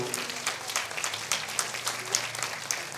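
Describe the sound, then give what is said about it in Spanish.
Audience applause at a community anniversary gathering in Cherán celebrating the defense of its forests: a steady wash of many hands clapping, dense and even, with a few sharper claps standing out. “Quisiera que le diéramos otro fuerte aplauso a los compañeros integrantes del Barrio Primero”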